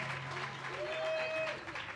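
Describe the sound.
Audience applause for dancers at a festival during a huapango performance: dense, steady clapping fills the whole clip at an even level, without a clear build or fade.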